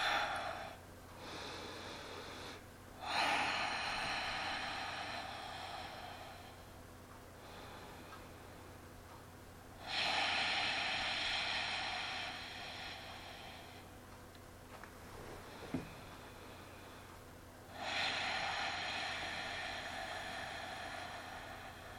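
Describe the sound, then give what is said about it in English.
Long, slow, deep breaths taken to center a group before a praise chant: a few drawn-out, airy breath sounds separated by quieter pauses, over a steady low background hum. “we'll center ourselves by taking some long, slow, deep breaths.”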